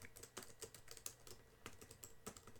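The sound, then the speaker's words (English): Rapid keyboard typing: many crisp, irregular keystroke clicks in quick runs with short pauses between bursts, steady and fairly soft, with no voices. “Oh, well, I sit here and type.”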